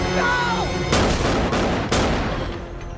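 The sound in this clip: Gunshots ring out on a boat: three loud, sharp cracks at uneven intervals, each followed by a rumbling tail that fades slowly.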